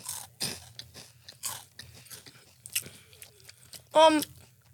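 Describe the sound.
Crunching and biting into square, airy spicy corn chips: several crisp crackling bursts, ending in one loud, sharp crunch, with voices talking in between.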